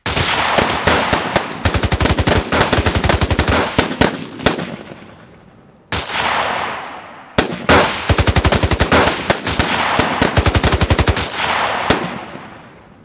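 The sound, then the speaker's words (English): Automatic gunfire aimed at a man: a few long, loud rapid-fire bursts, each a dense stream of sharp reports that trails off, with short gaps between them. “Take the shot now while he's no longer in contact.”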